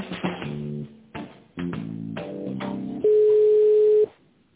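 Telephone line tones play while a call to an oil depot is being transferred: a few short, chopped tone bursts, then one loud, steady, unbroken tone lasting about a second before it cuts off.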